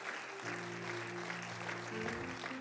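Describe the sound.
Church audience applauding to welcome a visiting pastoral family and team during a morning service. Steady, even clapping runs throughout beneath sustained low music chords that shift a couple of times.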